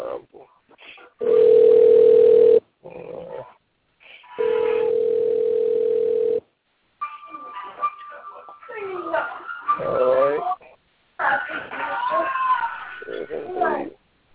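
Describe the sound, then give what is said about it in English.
Phone ringtone of a late caller joining a call: two long, steady buzzing rings with a pause between, followed by a stretch of voices talking. “So let me see if I can chime him in. So excuse his ringtone.”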